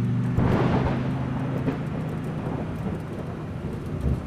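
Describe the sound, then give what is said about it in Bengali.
A thunderstorm with heavy rain and thunder hits a moving car on a paved road in open fields: a dense, continuous roar of rain layered with deep, low rumbling, with no voices. “ইলাম বাজার পেরোতে না পেরোতেই ঝড়টা এসে পড়ল”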